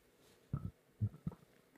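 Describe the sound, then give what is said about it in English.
Three short, low burps come in quick succession, each a soft guttural pulse with a brief gap between them, over a quiet background. “cut that out. So many burps this evening.”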